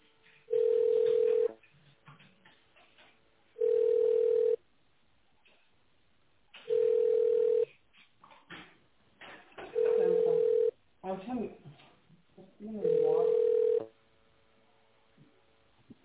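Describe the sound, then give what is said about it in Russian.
Telephone line tones sound while a call is being transferred: five steady, low-pitched beeps, each just under a second long, repeat evenly about every three seconds, with faint, muffled line noise in between. “Сейчас, секундочку. Сейчас Татьяну переключу, вы с ней переговорите.”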